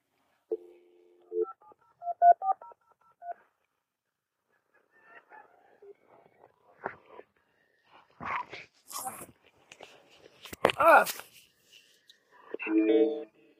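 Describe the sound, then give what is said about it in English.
An old-fashioned dial-up modem dialing: a quick run of touch-tone beeps over the first few seconds, then scattered clicks and harsh bursts of noise that grow louder toward the end. “Old-fashioned modems. Dialing.”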